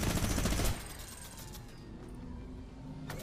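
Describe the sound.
Minigun fire in a video game bursts out loud and dense for under a second, then falls to a lower, steady rush of noise that continues to the end.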